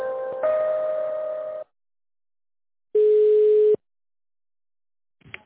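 Telephone line tones play while a call is transferred: two steady, even beeps separated by silence, the first long and the second shorter, followed by a brief faint click near the end.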